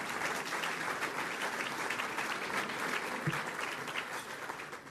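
Applause at the City Club of Chicago welcomes a guest: a steady, even wash of many hands clapping, sustained alone at moderate level for the whole stretch.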